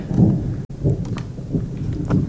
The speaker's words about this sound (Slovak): Hromy nás upozorňujú, že by sme sa mali ponáhľať.